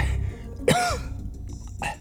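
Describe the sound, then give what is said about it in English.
A man coughs up pink foam. There are two harsh coughing bursts, a longer loud one followed by a shorter one, over a low steady background. “He coughed up pink foam, squeezing his eyes shut.”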